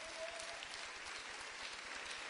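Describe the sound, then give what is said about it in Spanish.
Applause from a church audience giving praise: a faint, steady wash of clapping that continues without pause. “¿Cuánto le dan aplauso al Señor, hermano?”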